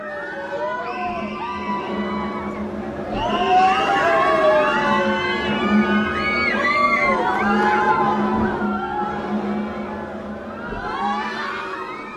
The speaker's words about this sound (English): Conquistador was the thing we just heard, which was the ship that just rocks back and forth. Yeah, kind of I think it's a pirate ship normally at most places.